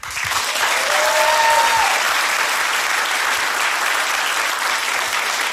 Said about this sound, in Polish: ale najpierw proszę o wielkie, wielkie brawa.